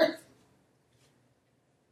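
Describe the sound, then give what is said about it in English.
One short throat clear from a participant in a group Scripture discussion, a quick raspy burst right at the start that fades within a quarter second, leaving near silence with only a faint trace afterward. “Was that a throat clear getting ready to answer? Okay, that was just a throat clear.”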